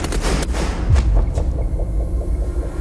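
A firing squad's volley of rifle shots at an execution in a fort south of Paris: a few sharp, booming reports over a heavy, continuous low rumble.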